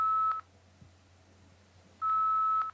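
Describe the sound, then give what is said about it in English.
Telephone dialing tones from a failed dial-up: a short steady electronic tone, a pause of quiet hiss, then a longer tone at the same pitch. “Failed dial-up.”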